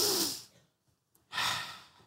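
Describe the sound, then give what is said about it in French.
Slow, calming breathing: a long airy inhale, a short quiet pause, then an equally long, soft exhale, two breaths in all with no voices. “Inspire, expire.”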